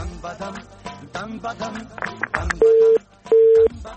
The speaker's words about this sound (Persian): خب تماس بانو زینت وفا بود فکر میکنم قطع شد، امیدوارم دوباره تماس بگیرن